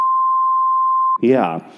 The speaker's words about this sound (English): We'll beep it out. Yeah. We'll beep it out when you say it.